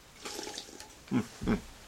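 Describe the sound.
Two short gulps as someone drinks Del Monte orange juice, the second slightly longer, each a wet throaty swallow over a quiet background, with no talking.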